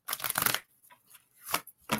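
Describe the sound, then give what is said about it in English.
Cards being drawn from a deck during a card reading: a longer papery riffle followed by a few short, crisp snaps and flicks, moderately loud and with no talking. “Let me pull a card for Terry”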